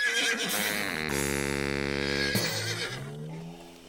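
Horses neighing aboard a horse ferry: one loud, drawn-out, harmonically rich whinny fills the middle, framed by fainter snorting and shuffling, with no talk.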